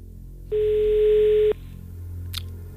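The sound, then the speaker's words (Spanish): A telephone dial tone sounds while a number is about to be dialed: one steady, unbroken hum lasting about a second that starts and stops abruptly, followed by a brief faint click over quiet background hiss. “vamos a marcar, compañeros, por favor, el número de teléfono. Da tono, buena señal.”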